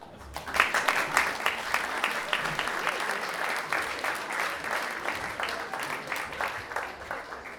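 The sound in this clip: Warm applause from an audience at a book festival welcoming an author to the stage: steady, dense clapping that peaks early and continues at an even level throughout.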